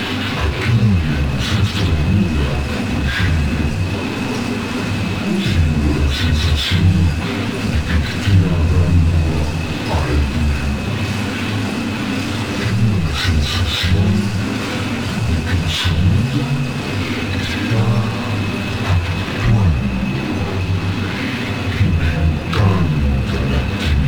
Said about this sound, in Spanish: Pero cuando oigo el tráfico, el sonido del tráfico,